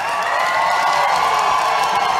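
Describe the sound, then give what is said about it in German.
Press audience at the Berliner Volksbühne cheering enthusiastically as two band members in dark suits walk onstage, a dense, steady roar of crowd noise with no pause. “als zwei Männer in dunklen Anzügen die Bühne der Berliner Volksbühne betreten. Sie werden von den anwesenden Presseleuten begeistert begrüßt. Es sind Dave Gahan und Martin Gore von Depeche Mode.”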